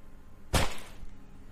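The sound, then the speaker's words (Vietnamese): A single sharp chopping blow struck by an old man opening a coffin at a grave in a village tale: one sudden loud thwack that cuts off quickly and leaves a faint hiss, with no voices. “Lão Minh nghiến răng nghiến lợi, rồi cuối cùng chặt đánh bập một cái.”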